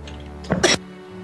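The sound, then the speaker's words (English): A woman coughs in a short double burst, brief and moderately loud, over a low, steady hum. “she's coughing. Yes, indeed, she's coughing.”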